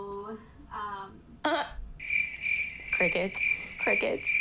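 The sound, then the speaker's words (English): Crickets chirping in a shrill, high, rapidly pulsing trill that starts partway through and carries on steadily to the end, with voices heard before and beneath it. “Crickets.”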